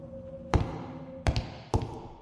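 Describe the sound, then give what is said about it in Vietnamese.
Footsteps in a quiet corridor: three sharp, separate impacts over a faint steady hum, with no voices. “Vừa rồi có tiếng bước chân của ai khác nữa.”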